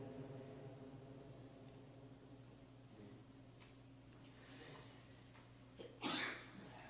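A single short sneeze bursts out near the end, loud against an otherwise quiet, low background hum.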